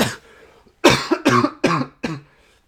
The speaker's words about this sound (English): as you can hear, there is still a lingering cough